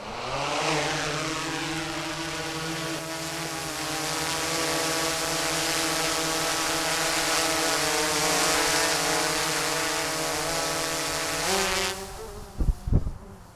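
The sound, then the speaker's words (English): A multirotor drone with 10-inch rotors takes off quickly, making a loud, steady harmonic buzzing whine throughout. A few sharp thumps come near the end. “Wow, that thing's got some fast takeoff. It was about 7 or 8 feet above our heads, and it just zoomed up.”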